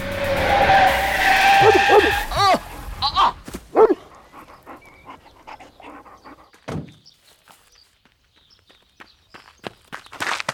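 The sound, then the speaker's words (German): A car driven recklessly fast skids with a long tire screech, then strikes a dog, giving a couple of sharp yelps. Scattered knocks and footstep-like thuds follow and thin out into near silence. “Wow, der Hund hat ihn voll erwischt. Ich hab den nicht kommen sehen. Sie sind aber auch gefahren wie ein Irrer.”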